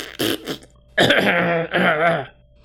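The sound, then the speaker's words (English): A voice imitates a cough made after a fart to cover it up. Two short, raspy bursts come first, then a longer voiced, gravelly hack in two parts. “every time he'd fart, he would cough after he was done farting, thinking like that was disguising the fact that he was farting.”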